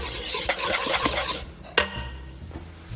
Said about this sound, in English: Okay, so whisking.